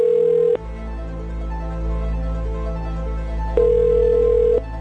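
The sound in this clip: A telephone ringing tone sounds on a phone line in two steady tonal bursts separated by a longer gap, over a constant low hum.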